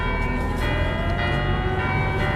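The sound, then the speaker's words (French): The cathedral bells of Notre-Dame ring as a dense, continuous wash of overlapping bell tones, steady and loud throughout, with no voices. “Les cloches de Notre-Dame. J'adore.”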